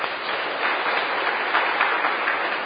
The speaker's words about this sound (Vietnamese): Các bạn giỏi. Hoan nghênh cái nữa đi.